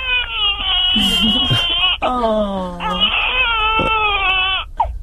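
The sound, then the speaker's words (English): A baby cries loudly in a few long, high, wavering wails separated by brief breaths, ending with a short whimper. “I think my baby's crying.”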